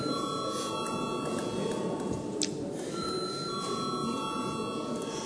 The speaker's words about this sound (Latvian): Paldies, lūdzu zvanu.